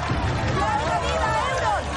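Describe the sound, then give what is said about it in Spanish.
Crowd filling the streets of King's Landing: a dense murmur of many voices and shuffling, steady and loud throughout, with a narrating voice over it. “En desembarco la gente abarrota las calles.”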